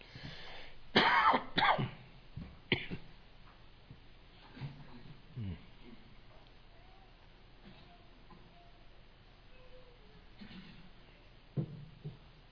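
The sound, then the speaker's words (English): Several harsh coughs and throat clearing from a throat dried out by dry weather come in a cluster near the start, followed by quieter, scattered throat sounds and a final short cough. “This dry weather and lack of snow has gotten my throat.”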